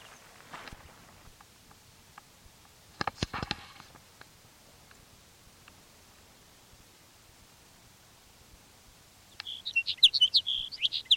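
Bird song: a short burst of bright, high chirps and twitters near the end, after a long, mostly quiet stretch broken by a few soft clicks and knocks.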